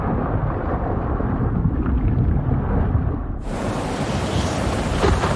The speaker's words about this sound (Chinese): 海面之上，狂风暴雨肆虐。为了躲避巨浪，大白鲨潜入了深海。